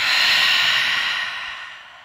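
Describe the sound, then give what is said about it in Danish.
Deep breathing in through the nose with a full exhale during a guided floor exercise, heard as one steady airy rush that gradually fades over about two seconds, with no talk. “tag en dyb indånding gennem næsen og en fuld udånding.”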